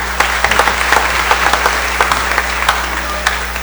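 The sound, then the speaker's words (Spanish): Applause from a church audience, a dense steady patter of many hands clapping at moderate loudness over a low constant hum, without voices. “si quieren dar un aplauso para estos”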